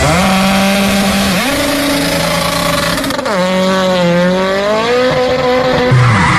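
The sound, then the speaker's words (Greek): Car tyre blowing out and skidding on a road, leaving the rim on the tarmac: a loud, continuous squealing whine that bends up and down in pitch, with a brief sharp burst midway. “Αμάν, πάει το λάστιχο, πάει και η ζάντα στη μέση του δρόμου.”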